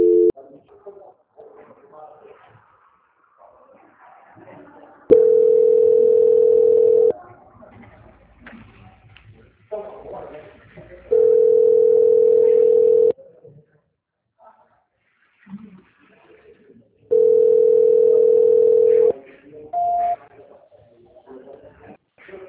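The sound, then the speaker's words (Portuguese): A telephone ringing tone during a call transfer: three steady, evenly pitched tones of about two seconds each, separated by pauses filled with low background sounds. “Transferência. Tá tocando lá, eles já vão atender.”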